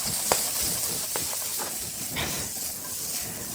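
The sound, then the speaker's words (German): Onions and bacon frying in a pan, giving a steady sizzling hiss with a few brief crackles and pops scattered through it. “Die Zwiebeln und Speck jetzt einfach so lange braten, bis die Zwiebeln A gar sind und eine leichte Färbung, eine leichte Bräunung bekommen.”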